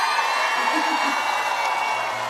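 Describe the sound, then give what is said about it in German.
Audience in Straubing applauding and cheering, a continuous wash of clapping mixed with whoops and shouts, steady and full throughout. “Nochmal einen riesengroßen Applaus. Komm schon, Straubing!”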